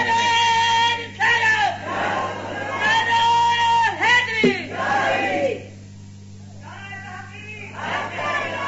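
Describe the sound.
A crowd at a religious gathering shouts the takbir slogan in response, loud massed voices in several bursts, then a short lull before another shout rises.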